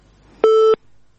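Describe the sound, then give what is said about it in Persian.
A dropped call ends with a single steady telephone tone. It lasts about a third of a second and is loud against faint line noise before and after. “بلی خب، تماس شنوندی ما قطع شد.”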